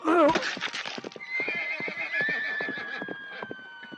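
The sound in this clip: Horse neighing in a radio drama, a judge's mount galloping toward a tree branch: a shrill whinny at the start, then steady rhythmic hoofbeats with a thin sustained whine running through them.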